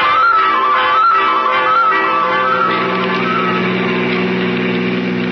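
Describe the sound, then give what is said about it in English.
Car engine driving fast in a radio drama scene: a loud, steady engine hum whose pitch wavers in the first couple of seconds and then settles into a sustained drone, with no voices over it. “don't drive so fast. I'm getting you to that hospital. We're late. But you're going over the speed limit.”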